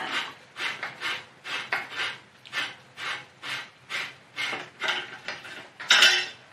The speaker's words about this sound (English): Let's remove our rear rack screw, bolt, whatever you want to call it.